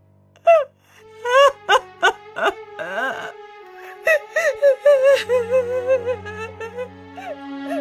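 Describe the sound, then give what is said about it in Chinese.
A mother wails in grief after her husband's death in surgery: loud, high, quavering cries broken by many sobbing bursts and catching breaths, the pitch bending up and down through each wail. “在母亲悲怆的痛哭声中”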